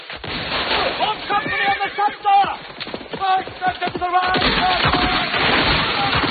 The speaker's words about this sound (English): The column's under fire from an ambush.